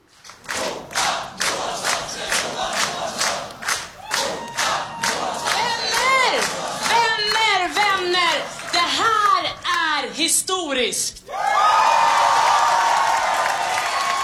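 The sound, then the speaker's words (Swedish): A crowd at the Liberal party's election night party claps in steady rhythm, then shouts and chants, and finally breaks into loud, sustained cheering. “Så här lät det på deras valvaka när Simona klev upp.”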